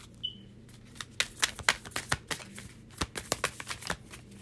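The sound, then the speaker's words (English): Tarot cards being shuffled and handled for a reading: a quick run of many crisp, papery riffles and light taps in an uneven rhythm, fairly faint and without voices. “Okay, let's get one more card.”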